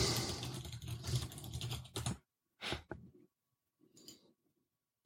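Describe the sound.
Clattering keystrokes on a computer keyboard: a dense run of rapid typing, then a pause and a few scattered, isolated clicks.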